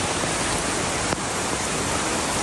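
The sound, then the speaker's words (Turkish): A sudden heavy rain downpour in Beyoğlu roars as a dense, steady, full-band hiss at constant loudness, broken only by one faint click midway. “Meteoroloji Genel Müdürlüğü'nün uyarılarının ardından beklenen sağanak Beyoğlu'nda da bir anda bastırdı.”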